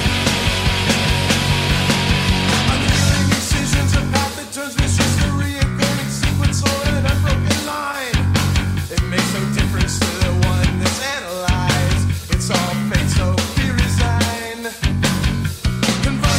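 A recording of an alternative rock band plays loud and dense, with driving drums, heavy distorted guitars and bass in a steady pounding rhythm throughout.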